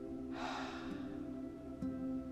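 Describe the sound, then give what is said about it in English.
A single audible exhale during a guided deep-breathing exercise, a soft, breathy rush lasting under a second, over a faint, steady low hum. “Take one more deep breath in at your own pace, and this time exhale with an audible sound”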